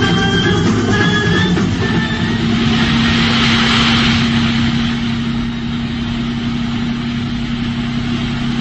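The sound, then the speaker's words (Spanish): A powerful Rolls-Royce car drives through thick fog. Its engine gives a steady, loud, low drone with a faint higher whine, running continuously without a break. “El hombre increíble controla con pulso firme el volante del poderoso Rolls Royce.”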